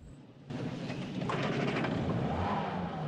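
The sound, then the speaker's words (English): Car engine restarting: after a near-silent half second, the engine catches abruptly and settles into a loud, steady rumble that runs to the end, with no voices. “He restarts the car.”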